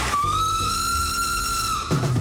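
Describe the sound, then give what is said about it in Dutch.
A steam train whistle in a park sounds one steady, bright, sustained tone for nearly two seconds over a constant background rumble. “Die willen graag die stoomtrein, juist die witte rookpalm in het Goffertpark. En dat fluitje, hè, ook heel belangrijk.”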